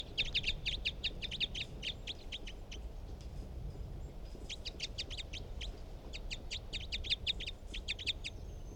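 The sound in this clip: Bird calls: three bursts of rapid, high-pitched chirping notes, separated by short gaps, over a low background hum.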